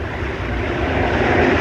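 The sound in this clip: An engine runs with a steady, continuous broad rumble that holds at an even level throughout, with no other sounds standing out.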